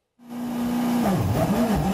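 Rally car engine as Elfyn Evans drives around Glasgow: the motor catches abruptly and holds a loud, steady note, then its pitch wavers and dips through a few quick throttle changes.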